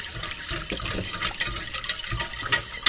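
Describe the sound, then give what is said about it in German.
Cold milk is poured into a roux off the stove and stirred vigorously, giving a steady wet splashing and trickling with a few sharper sloshing spikes toward the end. “kalte Milch. Schütte da was von in die Mehlschwitze, in das, rühre das kräftig.”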